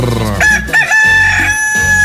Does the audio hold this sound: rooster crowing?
yes